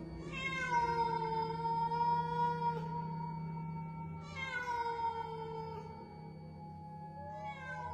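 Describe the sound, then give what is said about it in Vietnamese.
A cat meows in long, drawn-out wails, each sliding down in pitch before holding steady. Two full meows are followed by the start of a third, over a faint low hum. “Tiếng mèo kêu vang lên, cả đám quay phắt nhìn ra sân.”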